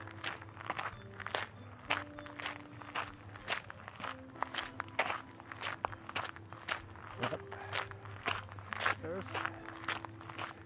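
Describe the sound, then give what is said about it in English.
Footsteps of a person running uphill on a trail, a long series of quiet, steady footfalls that keep an even rhythm throughout. “Elevation gain at the beginning of this run, whichever direction I run from, direct center, within 50 meters I'm climbing.”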